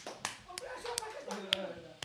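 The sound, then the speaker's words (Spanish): Scattered hand claps ring out in applause for a basketball association, several sharp, separate slaps spaced irregularly under ongoing talk from a few voices. “Un aplauso, muy bien, sí señor.”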